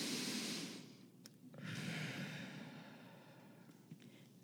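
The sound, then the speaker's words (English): Deep breathing: slow, airy breaths in and out, heard alone without talk. A long breath fades, and a second full breath follows and tails off gradually. “let's take a minute, deep breath. And breathe.”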